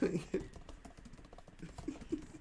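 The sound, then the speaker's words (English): Faint, irregular clicking of typing on a computer keyboard as someone retypes deleted text: soft, quick key taps spread unevenly through the moment. “oh, fuck, I deleted it. But here, I'll just type it again.”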